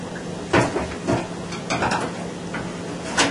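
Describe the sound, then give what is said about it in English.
Battered shrimp deep frying in hot oil gives a steady, dense sizzle, with a few sharp clinks and scrapes of utensils against the pan and no talking. “And add some water to make it into a consistency so we can dip the shrimp in it and now deep fry it.”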